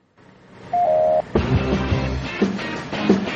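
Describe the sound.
A telephone keypad tone, one steady two-note beep of about half a second, followed by a louder, busier noisy sound with a few short accents.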